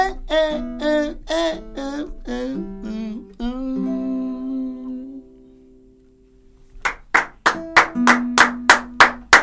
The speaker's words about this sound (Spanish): Fuerte aplauso.